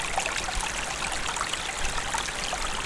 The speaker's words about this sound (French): De l'eau si agréable.